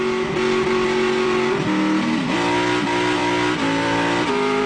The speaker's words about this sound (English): Oh yeah, so that's the old V8